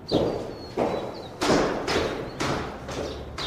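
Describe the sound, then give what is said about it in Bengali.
Hurried footsteps climbing stairs, a steady run of heavy, dull thuds spaced roughly half a second apart. “দ্রুত পদে বোমকেশ ওপরে উঠে গিয়ে ফনির দরজায় টোকা মারল”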